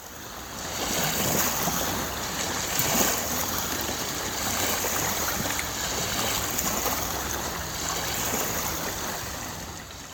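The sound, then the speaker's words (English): Water and boats on Lake Ponderay at Sandpoint, heard as a steady wash of waves and wind noise with a low rumble beneath, continuous and fairly even throughout. “Well, is it too much of a pedestrian guess to say that's the lake? That is the lake. You're correct. Yes. All right. Well, Lake Ponderay.”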